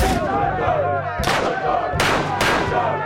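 Gunshots ring out in a firefight against charging attackers: four sharp, loud blasts, irregularly spaced, each bursting across a wide band and trailing into a ringing decay over a constant dense background roar.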